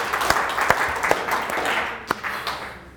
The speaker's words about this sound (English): a big round of relieved applause. How about it?